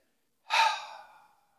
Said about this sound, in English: Take a deep breath.